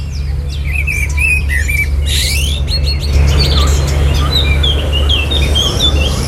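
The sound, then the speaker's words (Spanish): Birds at dawn in the Alhambra woods: European robin clicks and chirps come first, then a common blackbird's warbled dawn song of varied phrases, over a low, steady hum. “Está amaneciendo y escuchamos los primeros chasquidos del petirrojo europeo y luego el canto al alba del mirlo común.”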